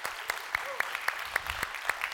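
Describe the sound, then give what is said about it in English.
Clapping from a church audience welcoming online worshippers comes as a rhythmic run of sharp, evenly spaced claps, steady and fairly quick. “So if you guys here in person, if you would, put your hands together, welcome in our online family here today.”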